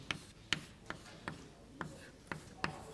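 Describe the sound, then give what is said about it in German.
Writing on a board during a German lecture: several faint, sharp taps and strokes at a loose, fairly even pace, quiet and isolated against soft background noise. “Ich schreibe das gleich mal etwas allgemeiner an.”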